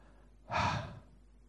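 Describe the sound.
A single breath, exhaled as an imitation of pronouncing the Hebrew name of God: a soft, airy rush of breath lasting about half a second, swelling quickly and fading. There is no voiced speech.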